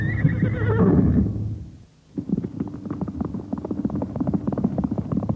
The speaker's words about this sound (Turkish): O anda Süraka atının başı üzerinden kumsala yuvarlandı. Ama büyük bir hırsla hayvana bindi ve yine mahmuzlamaya başladı.